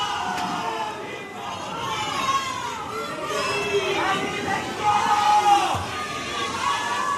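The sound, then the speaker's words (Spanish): A carnival audience waits for a comparsa to start its presentation, cheering and shouting. Many voices blend into a dense, steady roar with scattered louder cries throughout. “Menudo ambiente, este sí, sí. Público que les espera. No les dejan arrancar con la presentación.”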